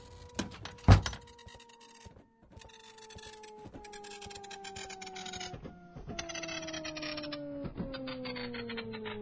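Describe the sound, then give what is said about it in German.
An office printer running: a steady mechanical whir with rapid repeated clicks and faint tonal hums, opened by a sharp knock near the start, then continuing at an even, moderate level without talk. “So, der Drucker ist entweder fertig oder gerade verreckt.”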